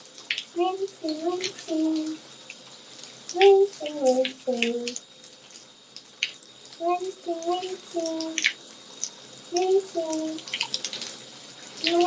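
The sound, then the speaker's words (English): Running shower water rinses off a person mid-shower, a steady hiss beneath a voice that sounds in short, repeated bursts. “I'm gonna wash this out right now. Rinsing.”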